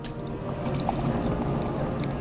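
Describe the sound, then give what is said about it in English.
Beer pours and splashes into a frosty mug in a saloon, a steady, continuous liquid rush at moderate loudness with a faint low hum beneath it. “On a hot afternoon, beer splashes into a frosty mug at Buster's in Sun City”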